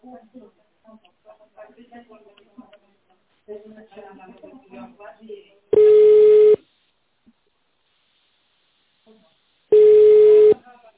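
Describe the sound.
Telephone tones sound on a company's automated line while an extension is being dialed. A recorded voice message comes first, then two steady, buzzy tone bursts, each under a second long and about four seconds apart, with quiet between them.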